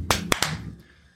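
Hand claps marking a cut during filming: three sharp, dry claps, the last two close together, each ending in a quick decay before silence.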